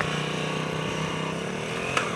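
Motorcycle engine revving through first, second and third gears with a somewhat reluctant throttle, a steady, dense buzzing drone rich in harmonics that runs throughout without pause.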